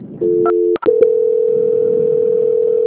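Telephone tones during a call transfer: a brief two-note tone, a couple of sharp clicks, then a long steady single-pitch tone held to the end, loud and without talk.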